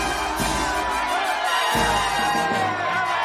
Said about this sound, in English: They stand before an enormous crowd. Spotlights shine to the sky.